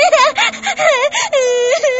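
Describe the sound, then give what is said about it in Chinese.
A girl cries sadly in loud, wavering wails, a string of sobbing moans that rise and fall in pitch with brief gasping breaks between them. “小英怎么了？哭得这么伤心？”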